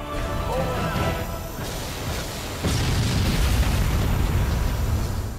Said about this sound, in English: The Scarab is destroyed. Victory is ours today.